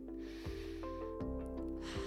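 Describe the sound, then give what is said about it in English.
A deep breath drawn in through the nose during a guided meditation, an airy, snort-like nasal intake over steady low humming tones that continue throughout. “I just want you to take a deep breath in through your nose”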